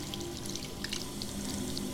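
Water runs steadily from a sink tap during washing, a constant even hiss that fills the whole clip at low volume with no break.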